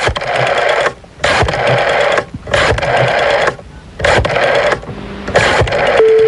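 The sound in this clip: A telephone ringing on an outgoing call, a loud buzzy ring repeating in a series of bursts separated by short gaps.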